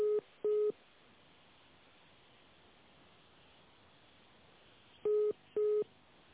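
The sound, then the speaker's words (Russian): Electronic beeps sound on a telephone line as an office call is transferred to another department. Two quick tones come at the start and two more near the end, with faint line hiss in between. “Давайте я бухгалтерию соединю вас. Давайте. Не ложите.”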